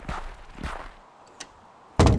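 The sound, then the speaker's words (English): Bus doors closing: a few soft, dull knocks and rattles, then one sudden loud, heavy thud at the end. “closed the doors and returned to his seat”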